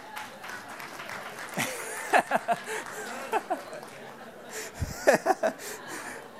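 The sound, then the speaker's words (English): Scattered clapping from a church audience mixed with chuckles and laughter, a few short bursts of claps rising above a low murmur of voices. “I don't know if the clap was out of being convicted or pointed at someone else.”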